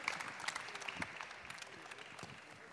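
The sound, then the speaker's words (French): Faint applause from an audience at a live debate on whether football is an art, a steady, dense patter of clapping that holds throughout. “On peut les applaudir.”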